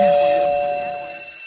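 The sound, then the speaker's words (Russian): A doorbell rings with a single sustained electronic chime, a bright steady tone that fades slowly over about a second and a half. “Я папа Карло, открываю вам дверь, звоню в звонок и захожу первый.”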